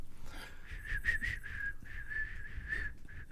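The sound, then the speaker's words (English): A person attempting to whistle, producing a faint, breathy, wavering tone that breaks into many short airy puffs, with a hiss of breath around each note. “That was whistling. Yeah. That was my attempt.”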